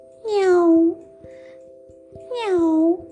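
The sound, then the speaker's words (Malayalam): Two drawn-out meows from a cold kitten caught in snow, each sliding downward in pitch and separated by a short pause, with a steady low hum running underneath. “അപ്പോഴാണ് ഒരു കുഞ്ഞിപ്പൂച്ചയുടെ കരച്ചിൽ അവർ കേട്ടത്.”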